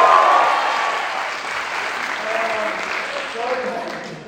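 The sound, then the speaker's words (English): Audience applause at a gathering in Virginia, a sustained, loud wash of many hands clapping that eases slightly after the start and carries on steadily, with crowd voices mixed in. “Give me a round of applause.”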